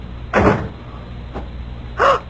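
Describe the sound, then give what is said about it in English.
A door closing: two dull, solid thuds with a faint short knock between them, heard alone with no voices. “Close the door. What? Come in, close the door.”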